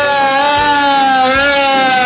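A loud police siren sound effect holds a steady, gently wavering wail with no talk over it.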